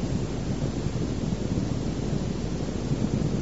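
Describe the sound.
Steady rainfall, a dense and even wash of noise that runs without breaks, fairly loud and alone.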